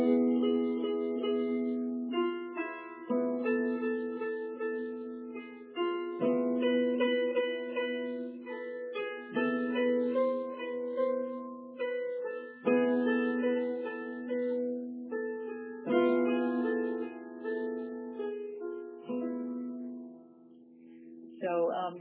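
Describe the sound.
Traditional Sufi melody played over an E chord in a simple rhythm: a sequence of clear, sustained pitched notes and chords repeating steadily at moderate volume, softening near the end and ending with one more note.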